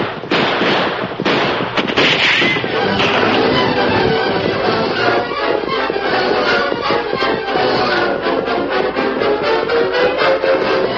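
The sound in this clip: Gunfire in a dramatized Western shootout fought from horseback: a dense, loud barrage of sharp cracks and pops, with many shots overlapping continuously throughout.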